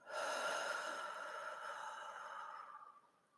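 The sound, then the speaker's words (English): A long, soft, airy breath of the kind taken in a slow breathing exercise. It is quiet and steady for a few seconds, then gradually fades away. “Take a deep breath in and hold it and release it.”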